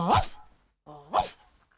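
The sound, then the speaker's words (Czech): A dog gives two loud, short barks separated by a pause, each one sweeping sharply upward in pitch. “Zatím jsem jenom slýchal ten tvůj proslavený štěkot.”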